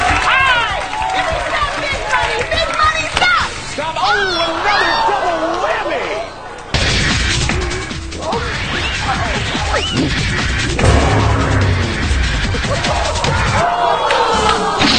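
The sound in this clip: Game-show Whammy animation sound effects for a snowboarding gag: a loud, busy run of whooshes, crashes and shouted cries with crowd noise behind, cutting abruptly midway into a fresh burst of commotion and voices.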